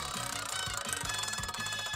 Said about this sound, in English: All right, so let me spin the wheel here.